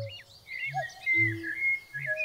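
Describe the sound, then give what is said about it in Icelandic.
Bird song: a string of bright chirps and short whistled notes, some sliding in pitch, over a soft low background. “Sem þýðir þá að þetta einkennandi innsogsspjall okkar Íslendinga er kannski ekki alveg eins einstakt og við hefðum haldið. Fuglarnir stunda þetta líka.”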